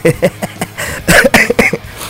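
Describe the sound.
A lingering cough left over after the flu: a quick series of short, harsh bursts, several spaced close together at the start, then a denser cluster after a brief pause.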